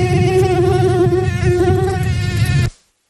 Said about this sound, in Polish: ilekroć dźwięk bzykającego komara pojawił się w naszych słuchawkach wprost proporcjonalnie ujawniał się uśmiech na twarzy.